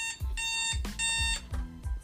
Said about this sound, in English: Okay, that was the alarm ringing. Letting you know.